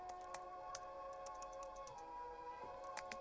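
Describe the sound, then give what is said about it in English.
Someone types at a computer keyboard in faint, irregular clicks and taps over a steady low hum. “Salvador types at his computer. He wears a focused expression.”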